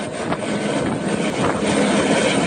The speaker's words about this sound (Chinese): 2架满载方便面、矿泉水等生活物资的直升机从常德市石门县全民健康活动中心操场起飞